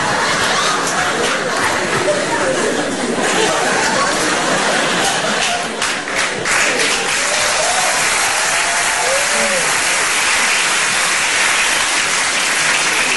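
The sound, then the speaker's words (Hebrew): Dense, steady applause from a crowd at a funeral gathering continues throughout, loud and unbroken, with faint murmuring voices beneath the clapping. “אין צורך בכפיים”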